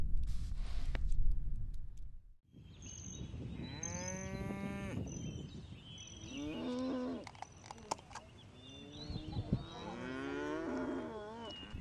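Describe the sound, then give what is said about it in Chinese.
A herd of cattle resting during a long drive gives several loud, drawn-out moos, some overlapping, with lower grunts and shuffling between the calls. “牛群停下来休息。”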